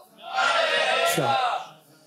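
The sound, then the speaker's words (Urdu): A crowd at an Urs-e-Raza religious gathering chants a devotional slogan in unison, a loud, sustained swell of many voices that holds for over a second and then fades. “نعرہ لگائیں فیض رضا.”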